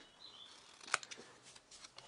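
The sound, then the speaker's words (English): Scissors cut a label shape out of cardboard: a few faint, scratchy snips, with one sharper click near the middle, heard alone. “And then what we're going to do is we're going to cut like a label shape”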